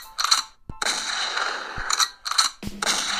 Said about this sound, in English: And just to take away from the misery, let's give them a shotgun to the dome.